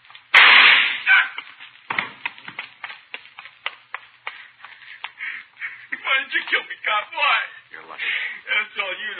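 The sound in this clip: A single loud, sharp gunshot cracks out near the start during a holdup, followed by a run of quieter clattering, rustling transients.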